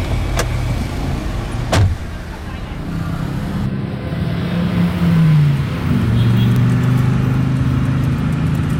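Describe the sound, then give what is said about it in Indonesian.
A car's engine runs throughout as a steady low hum that swells midway and then holds. A single sharp thud, like a door, comes early on. “Ayo naik mobil.”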